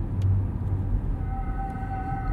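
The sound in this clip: Low rumbling engine hum of a car driving slowly past at night, a steady murmur with a faint whine emerging partway through, no voices.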